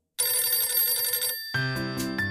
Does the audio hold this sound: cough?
no